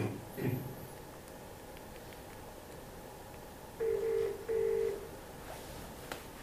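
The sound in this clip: A brief burst of telephone keypad tones, then after a quiet pause two long, steady ringback tones as the call goes through, with faint hiss throughout.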